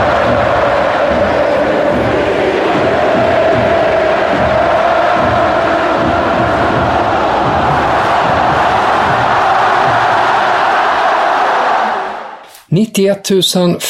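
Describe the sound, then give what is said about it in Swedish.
Stadium crowd roar at Camp Nou during a record-attendance Barcelona women's football match: a loud, dense wall of cheering and chanting that stays steady for about twelve seconds. It then drops away abruptly, and a voice begins speaking. “Det var en ljudkuliss som var ovanlig på Camp Nou. Inte bara därför att det sällan är någon ljudkuliss alls där, utan att det var för Barcelonas damer.”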